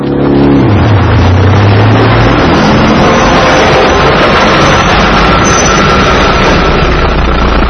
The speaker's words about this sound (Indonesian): Lihat teman-teman, ada banyak kendaraan yang sedang mengantri. Mereka mengantri untuk mengisi bahan bakar.